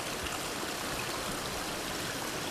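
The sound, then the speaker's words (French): A small stream winding through fir forest flows with a steady, even babble and rush of water, continuous throughout with no other sounds. “nous longeons ce petit cours d'eau. Il serpente”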